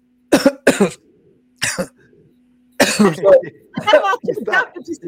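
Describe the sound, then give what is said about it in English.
Coughing and choking after a fly went into someone's throat: a few sharp, harsh coughs in quick bursts separated by pauses, then a longer stretch of rough, sputtering coughs mixed with a voice. “You choked him up. You choked him up. A fly went in my throat.”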